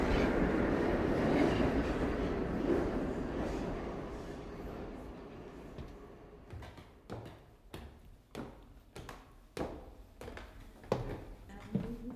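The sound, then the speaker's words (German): Two trains pull away at the same moment in opposite directions: a heavy, steady rumble gives way to many sharp wheel clacks over the rail joints, which grow sparser as the low roar thins out. “Dann nahmen beide Züge gleichzeitig in entgegengesetzte Richtungen Fahrt auf.”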